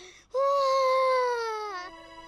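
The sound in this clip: A child cries over homework, a single loud, sustained wail whose pitch sags slightly before it breaks off, with a short quieter sound just before it.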